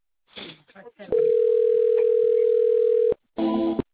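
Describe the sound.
Telephone ringing tone during a call transfer to an advisor: a long, steady mid-pitched tone follows brief speech, then a shorter, richer tone burst comes after a pause.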